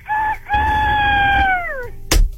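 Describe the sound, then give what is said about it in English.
A person imitates a rooster crowing: a short opening note, then one long, loud sustained crow that bends downward in pitch at its end, followed by a brief thump. “Like, actually cock-a-doodle-dooing. Yes. I mean, I want you to be a rooster.”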